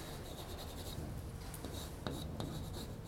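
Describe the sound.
Handwriting an equation during a lecture on circuit loop equations: a steady, scratchy stroking that runs throughout, with a few sharper ticks of the writing tool near the end.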